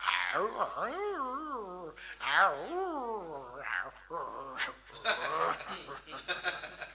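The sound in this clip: A human voice imitates a house dog barking in the morning, with a series of wavering, yelping and howling bursts whose pitch swoops up and down, mixed with short breathy sounds.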